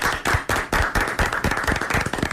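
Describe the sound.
Applause for a rabbi: a dense, steady run of many overlapping hand claps, fairly loud, with no voices standing out.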